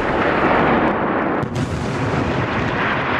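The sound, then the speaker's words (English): Rocket fire from northern Gaza, intercepted by Iron Dome over central Israel, makes a sustained, loud roaring rumble with a brief dip midway. “The war coming to Israel as well, with sustained rocket fire from northern Gaza, where most of Israel's forces are located. And after more than a week of quiet skies over central Israel, barrages of rocket fire intercepted by Iron Dome.”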